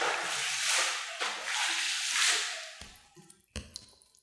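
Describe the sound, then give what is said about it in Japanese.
Water is poured to rinse someone off while they are being washed, a steady rushing splash for a few seconds that then thins into scattered drips and small splashes. “ではお流しいたします。”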